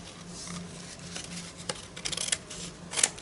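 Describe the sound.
Scissors trimming a multicolored craft piece: a few sharp, faint snips, some clustered together and one more later, over a low steady background hum.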